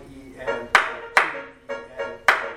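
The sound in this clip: Hands clapping a sixteenth-note rhythm during a music lesson: six sharp claps in an uneven pattern, with a voice speaking along.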